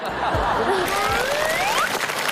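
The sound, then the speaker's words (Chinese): A studio audience claps warmly before a comic crosstalk routine, with some light laughter mixed into the dense, steady patter of hands. “谢谢谢谢大家热烈的掌声。”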